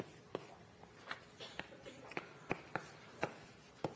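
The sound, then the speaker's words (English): Handwriting of an equation during a lecture on partial differential equations: a faint series of sharp ticks and soft scrapes at an irregular pace, over a low steady background. “let me write for you the space version of it.”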